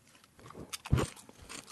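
A crunching bite into a convenience-store snack chip, the third one tasted: one loud, brittle crunch in the middle, framed by softer crackling chews before and after.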